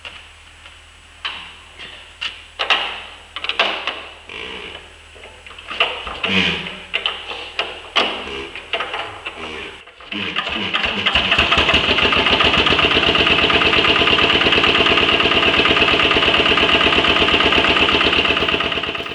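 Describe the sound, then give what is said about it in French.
A vintage CLM vertical two-stroke diesel engine, 10 horsepower and built between 1926 and 1933 under Peugeot Junkers licence, is primed and hand-cranked. About ten seconds of irregular knocking bursts give way to a loud, steady, even running drone once it starts. “On amorce deux, voilà. On prend la manivelle et ça devrait démarrer.”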